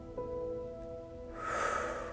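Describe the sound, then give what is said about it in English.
One deep, breathy inhale taken during a guided trauma-relief meditation. It swells up about halfway through and holds steady, after a faint sustained tone at the start. “I'd like for you to take another deep breath. Breathe in”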